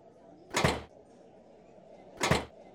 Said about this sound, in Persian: قفل ساز در را هل میدهد و در را باز میکند. در هنگام باز شدن محکم به یک صندلی میخورد.